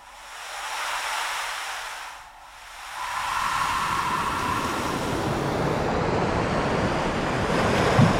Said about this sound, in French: il n'y a pas de vagues pareilles. D'ailleurs, quand vous regardez la mer, vous n'allez pas voir de vagues pareilles.